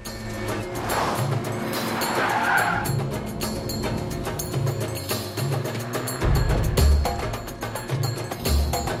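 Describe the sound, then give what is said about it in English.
A BMW speeding and skidding around a corner: loud tire squeal and engine roar that build and stay strong throughout. “The assassin's BMW speeds around a corner.”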